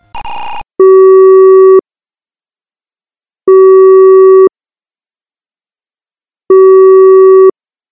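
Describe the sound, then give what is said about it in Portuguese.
A telephone call tone sounds as a call is placed to a friend: a brief burst, then three long, steady beeps of equal pitch, each about a second, separated by longer silences. “eu vou ligar nesse exato momento para o meu amigo, o Gabriel”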